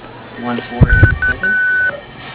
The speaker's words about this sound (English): if you leave me your name and number after the tone, I'll call you back as soon as I can